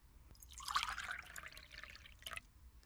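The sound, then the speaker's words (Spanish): Bottled water is poured into a glass in a faint splashing trickle lasting about two seconds, followed by a brief drip near the end. “Le pongo agua embotellada.”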